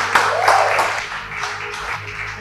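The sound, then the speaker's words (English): A church audience applauds with dense, steady hand clapping. The sound stays broad and fairly loud throughout, with no clear gaps. “Why don't you put your hands together for the Lord?”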